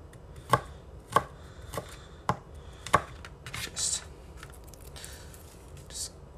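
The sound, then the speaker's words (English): A knife chops garlic with five sharp, evenly spaced strikes, followed by quieter, softer handling sounds, faint overall. “Just whenever you're getting your garlic, also make sure you cut out any bad spots you find.”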